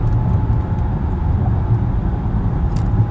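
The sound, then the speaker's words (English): Inside a moving car, a steady low engine drone and road rumble hold evenly throughout, with no voices. “I'm multitasking while I'm driving, which I shouldn't be doing.”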